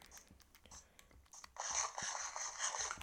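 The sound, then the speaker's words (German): Crunchy eating sounds as a character eats food in a video game: after a few faint clicks, a dense run of rapid, sharp crunching bites continues loudly to the end. “Kurz was essen.”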